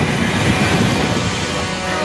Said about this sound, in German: Wenig später fährt der Zug in Appaloosa, einer kleinen Westernstadt, ein.